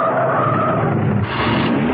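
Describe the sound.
Car tires skidding as a car brakes hard in a car park: a loud, continuous rubbery screech over a rough rumble, holding steady for the whole two seconds.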